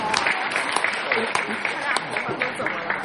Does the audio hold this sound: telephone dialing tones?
no